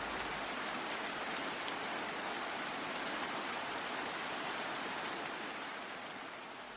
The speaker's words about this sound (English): Sound number 7 was the sound of rain.